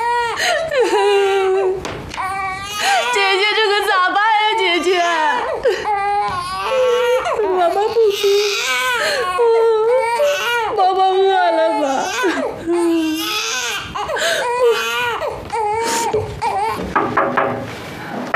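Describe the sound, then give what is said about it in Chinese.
A baby cries in sustained, repeated wails that rise and fall in pitch throughout. The sobbing is loud and nearly continuous, with only brief catches of breath between cries. “宝宝不哭，你看看，咋了？啊？哦，不哭，娘在呢，爷在呢，你别哭了啊！”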